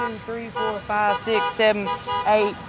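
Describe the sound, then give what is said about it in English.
Car horns honk on a street corner in a quick run of several short, loud, tonal toots, one after another with brief gaps between them. “But all of these honks are coming by.”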